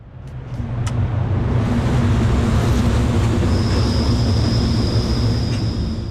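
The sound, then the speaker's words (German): A train passes outside the entrance of a design museum at the Toni-Areal in Zurich. A loud rolling rumble builds over the first second and then holds as a steady roar, and a thin, high wheel squeal joins partway through. “So tönt es beim Museum für Gestaltung vor dem Eingang zum Toni-Areal.”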